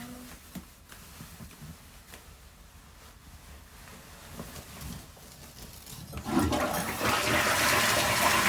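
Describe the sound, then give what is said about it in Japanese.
A toilet flushes, with quiet rustling giving way about two-thirds through to a loud, rushing surge of water that continues to the end. “うんちくんバイバイ、流してきます。”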